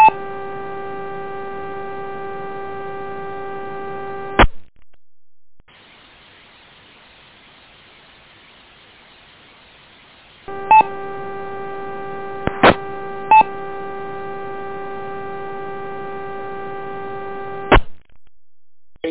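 An amateur radio repeater is keyed up with no audio: a steady buzzing harmonic hum cuts off abruptly, and a stretch of faint static hiss follows. The buzz then returns with a few sharp clicks before stopping again.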